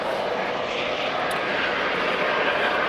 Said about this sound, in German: Startenden Hubschrauber hatten wir jetzt auch schon eine Weile nicht mehr. Ist wirklich ein ADAC. Oder sieht aus wie ein ADAC, knallegelb.